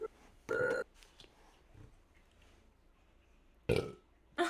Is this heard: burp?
yes

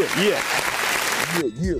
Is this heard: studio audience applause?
yes

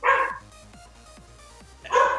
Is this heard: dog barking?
yes

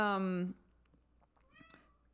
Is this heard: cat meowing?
yes

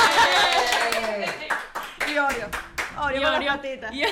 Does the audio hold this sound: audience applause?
yes

